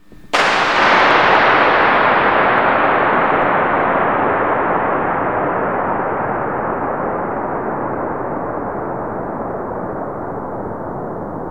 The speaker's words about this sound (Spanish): vais a escuchar un disparo y luego eco de 112 segundos